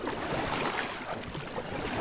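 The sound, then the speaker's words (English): Water rushes steadily and loudly around a raft carrying eight people on the Lower New River in West Virginia, in a tall, tree-covered canyon with light drizzle, a continuous wash with no breaks. “I'm on a raft with 7 other guests on the Lower New River. The water is warm, the canyon surrounding us is tall, and it's covered in thick green trees.”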